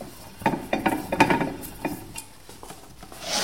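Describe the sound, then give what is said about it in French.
A bookbinder takes a bound book out of a bookbinding press with a series of short wooden knocks and clattering scrapes, several close together at first, then sparser and quieter, with a soft rustle at the end. “Et du coup, on revient, quand on revient dessus, on va le sortir de presse.”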